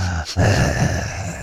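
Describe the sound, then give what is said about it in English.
A voice imitates a creepy phone caller's heavy breathing with a brief catch, then a husky, drawn-out rasping breath that stays fairly loud throughout. “when you said heavy breathing, I'm thinking about, you know, the creepy callers that you get sometimes, you know, the ones that just sit there and go...”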